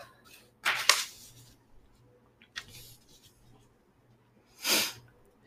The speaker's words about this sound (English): Write it down to make myself remember.